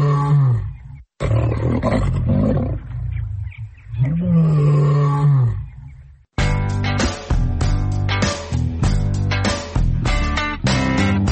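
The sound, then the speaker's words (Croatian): A lion cub, found in the hills above Budva in Montenegro, roars in a few drawn-out, throaty, growling calls, followed by music. “Kakav lav, strašan lav. Pa nije baš strašan, ali bit će kad poraste.”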